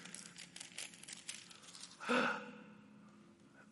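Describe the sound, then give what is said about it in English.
A page is torn from a Bible: a single short, faint rip of thin paper midway through, set against quiet background hiss. “I can literally tear a page right here.”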